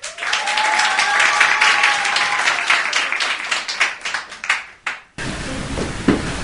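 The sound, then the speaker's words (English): Audience applause welcoming a show guest, King Nebuchadnezzar: many claps in a dense, loud wash that thins into scattered claps before an abrupt cut. “Everyone give a hand to our King Nebuchadnezzar.”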